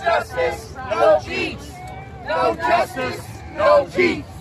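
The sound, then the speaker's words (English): UAW workers chant a protest slogan on a strike picket line against General Motors, Ford and Stellantis. Many voices shout together in rhythmic, repeated phrases with short gaps between the bursts. “That was the sound of UAW workers chanting on the picket lines this weekend after Detroit's big three automakers, General Motors, Ford, and Stellantis,”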